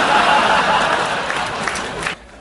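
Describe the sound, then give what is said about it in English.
Audience clapping rises as a dense, steady wash of applause and crowd noise that cuts off abruptly near the end. “he's the one clapping in the back right there”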